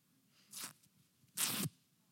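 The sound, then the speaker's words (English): Pieces are ripped apart by hand in two sharp tearing bursts, the second louder and longer than the first, separated by near silence. “give it a big rip, hold these pieces, just give it a big rip. You hear that sound? Find another piece. Bring that right up to the mic, let everybody hear that real good.”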